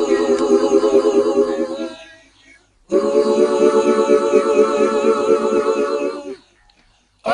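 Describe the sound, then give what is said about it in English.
Female backing vocals run through a frequency translator effect, making two long sustained phrases with a shimmering, wavering, metallic harmonic tone, split by a brief silence before a third phrase begins. “And we actually put this effect called a frequency translator on them, which made them sound like this.”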